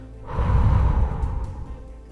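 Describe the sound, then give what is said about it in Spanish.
One long breath is heard during a breathing exercise. It is a soft, airy rush that swells quickly, holds, and slowly fades out, with no talk over it. “Comienzo inhalando una vez y exhalando 2 veces.”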